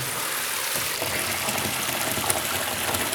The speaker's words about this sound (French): Bon, tu sens l'eau qui monte?